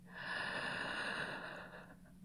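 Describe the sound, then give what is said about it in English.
A long, deep inhalation during a guided relaxation breathing exercise, one steady airy intake lasting about two seconds that softens toward the end, with no talk over it. “Take in a few deep breaths. Just like I taught you. Breathe in”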